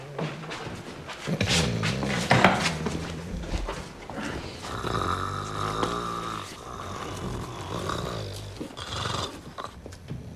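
A sleeping man snores heavily, drawing loud, rasping breaths in and out in a slow, uneven rhythm, with no talk over it.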